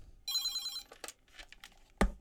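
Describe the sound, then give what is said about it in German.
A telephone gives one short, bright electronic ring of about half a second. Scattered rustles and clicks follow, then a sharp knock near the end. “Boah, Telefon. Ich muss mal kurz rangehen.”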